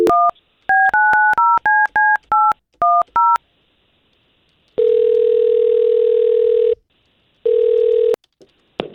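Telephone keypad tones as a number is dialed for a call: a rapid series of about ten short, high beeps, then two long, steady ringing tones separated by a silent gap, ending with a brief click.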